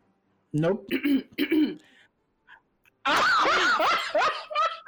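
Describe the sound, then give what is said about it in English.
Throat clearing from a person, heard as a few short, rough voiced bursts, followed after a brief pause by loud, animated talk. “I just cleared my throat twice.”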